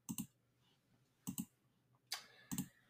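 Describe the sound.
Keystrokes on a computer keyboard: a few quick clusters of sharp, light clicks, often in rapid pairs, separated by short pauses, faint and with no talking.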